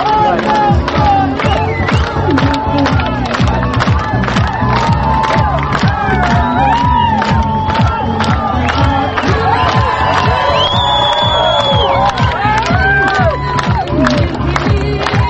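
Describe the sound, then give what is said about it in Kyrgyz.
At a candidate's rally in Bishkek, a large crowd of supporters cheers and claps nonstop, a loud, sustained roar of shouts and whoops layered over rapid clapping and a steady babble of voices. “Бириккен элдик кыймылын бирдиктүү талапкер менен жолугушууга келген эл талапкерди кол чабуулар менен тосуп алышты.”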